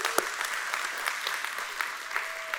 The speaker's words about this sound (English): Let's put our hands together and make our guests feel welcome today.